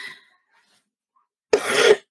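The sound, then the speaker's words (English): A person clears their throat once in a short, harsh burst, heard alone after a moment of silence. “Excuse me, I got to catch my throat.”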